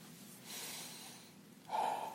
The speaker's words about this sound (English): I will breathe in and breathe out,